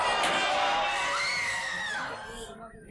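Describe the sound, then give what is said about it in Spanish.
A crowd of people screams and shouts in a street, a dense, loud wash of high yelling voices that thins and fades toward the end. “Como gritan en la calle. Y corren en todas las direcciones.”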